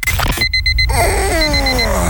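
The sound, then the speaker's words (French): An alarm clock rings with a loud burst of rapid electronic beeps, then a run of falling tones follows. “Tu croyais pouvoir repousser ton réveil? Encore 5 minutes.”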